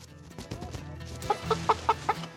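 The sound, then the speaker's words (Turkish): Chickens cluck as they are caught to be moved into the coop: five short, sharp clucks in quick succession toward the end, over a busy, noisy background. “Tavukları kümese taşımaya hazırız.”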